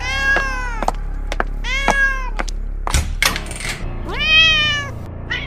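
A cat meows a few times, each meow drawn-out and wavering, separated by sharp clicks and a loud knock near the middle.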